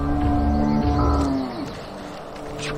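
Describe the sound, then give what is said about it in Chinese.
Yaks low on a high mountain pasture in the Hengduan Mountains during the rainy season, giving deep, droning, moo-like calls that run continuously and settle slightly quieter toward the end. “牦牛更喜欢吃高山上的草草，那这几个月都不回来了。”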